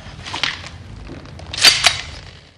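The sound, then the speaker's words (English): Punches to the stomach and face in a fight scene, heard as a few sharp, whipping impact hits, with a softer blow early on and a louder pair close together later. “He spins and punches Trautmann in the stomach. Then the face, opening a cut.”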